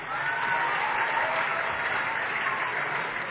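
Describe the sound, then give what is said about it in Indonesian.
Audience applause for a child who came forward at a preacher's gathering: a dense, steady patter of many hands clapping at an even level throughout, with no voices. “Kasih tepuk tangan buat yang maju.”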